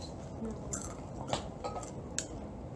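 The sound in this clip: Faint crunching from someone eating sour potato chips, with a few crisp bites and soft chewing over a low, steady background.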